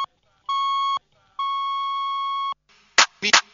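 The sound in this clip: Telephone beeps: a short steady electronic tone, a pause, then a second, longer tone at the same pitch, followed by a few brief noisy bursts.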